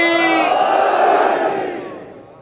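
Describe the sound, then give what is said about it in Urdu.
A crowd at a religious gathering shouts the Nara-e-Haidari slogan in unison. The single loud, sustained roar holds strong, then fades away toward the end. “اگر آخر تک جو مومنین چاہتے ہیں کہ اس نعرہ حیدری کو فضاؤں کے سپرد کر کے امام زمانہ کی خدمت میں ہدیہ پیش کریں، نعرہ حیدری،”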